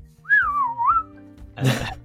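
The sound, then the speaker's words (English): A human voice imitates a dolphin's signature whistle: one high, wavering whistled tone that dips and rises, then a short breathy burst of noise. “Yeah, they have signature whistles that are distinct to particular dolphins. So they might go...”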